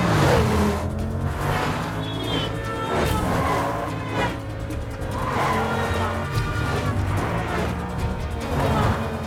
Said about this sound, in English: He narrowly misses a major collision at a junction and ends up driving down the pavement. He spots the yacht and steers the car down another ramp towards the riverside.